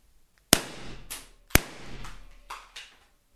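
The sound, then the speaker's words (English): A small handgun fires: two sharp, loud bangs about a second apart, each followed by a ringing decay, then a couple of fainter knocks afterward. “I'm inserting my second earplug. Okay. That gun is now loaded. It's a smallish gun. Fits very neatly into my hand. Ready?”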